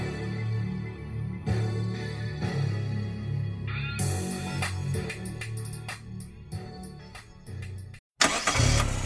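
A car engine starts and runs as a steady mid-pitched drone broken by several sharp bursts, with a brief drop-out near the end. No voices are heard.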